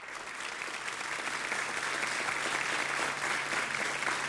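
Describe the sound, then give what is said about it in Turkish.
A studio audience applauds the soloists and instrumentalists of a Turkish music ensemble with clarinet and piano. Fairly soft, dense clapping builds slightly and holds steady to the end. “Efendim bugün bizlerle olacak solistlerimiz ve saz sanatçılarımızı bir alkışlar mıyız lütfen?”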